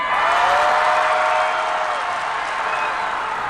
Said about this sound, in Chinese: 这一轮喜欢我们梦马队的掌声呐喊声走起来